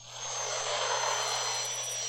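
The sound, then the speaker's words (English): A Star Wars land speeder landing sound effect: a loud, steady, jet-like roar with a high whine over a constant low hum, swelling in at the start and then holding level. “That was a land speeder. That was not a starship that second time. That's the landing sound.”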